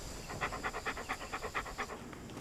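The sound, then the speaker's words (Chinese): A dog that needs a vet's treatment pants rapidly, its quick, rhythmic breaths coming as many short, raspy puffs in a steady run, fairly faint and with no voices. “好狗。 我们村有一兽医挺厉害，带他去治治吧。”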